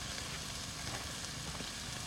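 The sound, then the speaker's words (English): Steady, dense sizzling of steaks frying over heat on a camping trip: a continuous crackling hiss with fine pops, even in loudness throughout and without talk. “We got the steaks going.”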